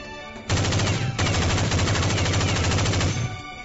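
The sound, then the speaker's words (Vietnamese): Rapid crackling gunfire: one loud, unbroken automatic burst of tightly packed shots lasting nearly three seconds, with no voices. “Bỗng nhiên, phía sau vang lên tiếng súng dồn dập giòn tan, cắt đứt lời của hắn ta.”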